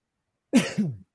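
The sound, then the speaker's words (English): A single choking cough from someone who choked while talking, split into two quick, rough bursts, heard alone against silence. “I choked for a second there. I apologize.”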